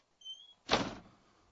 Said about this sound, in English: I got to shut the door again.